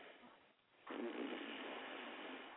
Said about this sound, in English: Who's that breathing like that and snoring?